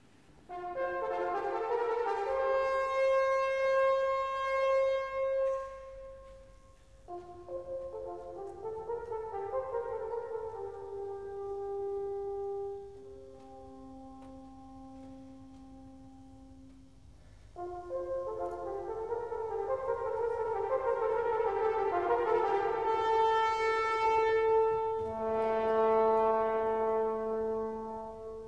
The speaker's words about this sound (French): Ici, écoutez l'appel de cor dans l'opéra Siegfried.